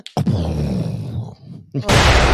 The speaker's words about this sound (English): I wish I had like a bomb sound effect.